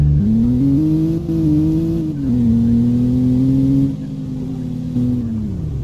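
Car engine in the Roblox game Florida State RP, a steady low droning hum with gentle shifts in pitch, slightly quieter and lower over the final seconds, heard alone.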